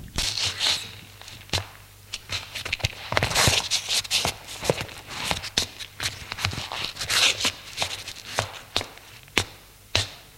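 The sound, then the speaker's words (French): Footsteps pace back and forth in a bedroom, made by a man in shoes and a nightshirt. Many irregular, soft-to-sharp steps and scuffs follow one another steadily with no talk. “Ses chaussures et en chemise de nuit, il fait les 100 pas dans sa chambre.”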